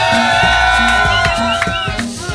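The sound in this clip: Pub audience cheering loudly, a sustained roar of voices with whoops, steady throughout and tapering slightly at the end.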